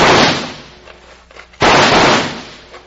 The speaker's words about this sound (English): Throw a few slugs in first and let's see what happens.